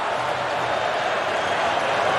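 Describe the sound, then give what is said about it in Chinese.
Football fans cheer continuously during the closing stage of a match involving Canada's team, a steady, even crowd roar with no distinct breaks or peaks. “球迷呢在不断的欢呼，示意球队往前。”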